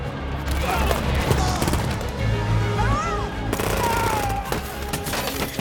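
Gunfire with bullets flying during a battle between factions: dense, continuous bursts of sharp shots and cracks amid loud, noisy combat sounds.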